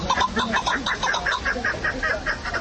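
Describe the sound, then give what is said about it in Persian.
Chukar partridge calling, a bird kept in Tajikistan for hunting and partridge fights: many rapid, raspy clucking notes repeated in a steady, even rhythm, loud and alone. “این صدای کپک یکی از پرنده های خوشخوان و خیلی دوست داشتنی مردم تاجیک است.”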